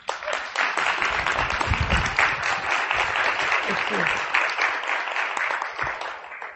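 Audience applause welcoming a presenter: dense, steady clapping that carries evenly from start to finish.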